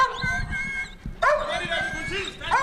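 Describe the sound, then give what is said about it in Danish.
A dog barks and yelps, gripping a man's right arm during a confrontation; short, sharp cries come in bursts over loud, continuous shouting voices. “Og det, der sker herude nu, det kan vi se, at hunden den sidder i højre arm på Thomas.”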